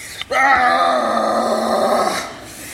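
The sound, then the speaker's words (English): A person yells a loud battle cry, one sustained full-voiced shout of nearly two seconds at a steady pitch that drops away at the end, heard alone. “you're going to yell your loudest battle cry like, ah! So, but we want to hear them individually before we do it as a group. So let's start. Let's hear your battle cry.”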